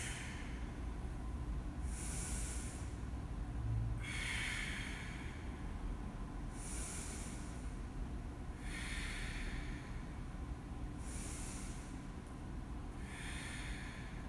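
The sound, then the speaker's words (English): Slow yoga breathing, with soft breathy rushes of inhaling and exhaling that come in a steady, unhurried rhythm several times over a constant low background hiss. There is no talk. “Fill up. Press your front foot down, straight down. Inhale. Exhale.”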